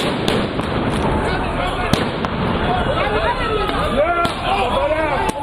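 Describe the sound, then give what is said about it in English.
Stun grenades explode at a protest at the Temple Mount during violence at the end of Ramadan. Several sharp bangs burst out over a continuous din of shouting crowd voices. “The protesters were met with stun grenades after a weekend of violence marring the end of Ramadan.”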